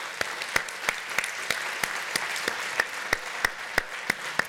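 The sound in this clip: Audience applause for the participants: continuous clapping in which sharp individual claps stand out at a steady, even rhythm.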